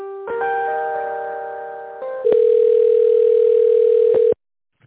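Telephone line tones during a call transfer: a chord of steady tones gives way to a louder, single sustained tone that cuts off abruptly, with no talking.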